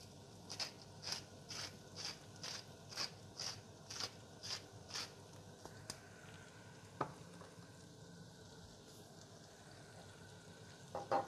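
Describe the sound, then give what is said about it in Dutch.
Cabbage frying in butter in a pan, a faint sizzle broken by a fast, regular series of short scraping strokes, followed by a few sparser clicks. “ik heb nu de kool in de pan, de boter.”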